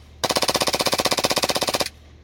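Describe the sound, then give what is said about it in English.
A gun fed from an M4 magazine fires one rapid automatic burst of about two dozen evenly spaced, loud cracks. The burst starts and stops abruptly, with no voices over it. “That thing shoots good. It's out. Yep. Pepper. That's a lot of ammo.”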